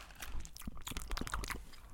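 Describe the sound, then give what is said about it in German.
Crunchy chewing of a very strong cinnamon-flavoured candy, with a steady run of many crisp bites and crunches at moderate loudness and no talking. “Ich werde es essen. Ich habe Zimt. Ich werde es essen. Okay, ich esse es auch.”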